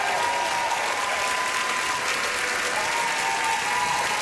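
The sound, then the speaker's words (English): Concert audience applauding after a live music performance at a performing arts centre in Vancouver: dense, steady clapping and crowd noise that stays loud and unbroken throughout. “Come on, Vancouver, make some noise!”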